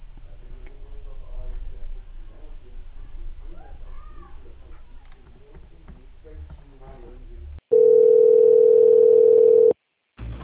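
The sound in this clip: A telephone line tone plays while a call is transferred: one steady, loud, unbroken tone lasting about two seconds, then an abrupt cutoff to silence. People talk before it.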